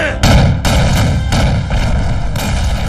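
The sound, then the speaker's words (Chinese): Artillery fire from a Japanese bombardment pounds defensive positions. Several heavy booms land at irregular intervals over a continuous loud rumble. “现在他们正用大炮对我阵地进行轰击， 这是日军的老套路， 炮击一停就会冲锋。”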